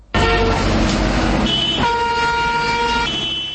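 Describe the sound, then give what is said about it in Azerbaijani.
Car horns blare in Moscow traffic: long, loud, sustained horn tones shift partway through to a different pitch. A low engine rumble runs underneath, and there is no talk. “Moskvada maşınların səsi, təyyarələrin uğultusu, tikintilərdəki hay-küy bir-birinə qarışıb.”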